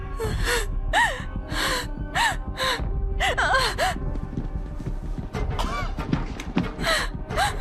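An injured person still alive, gasping for breath with many short, strained, voiced gasps and moans rising and falling in pitch, loud over a steady low background.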